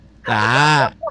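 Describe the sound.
A chicken lets out one loud, sustained squawk with a strong tonal ring, followed by a brief, fainter cluck.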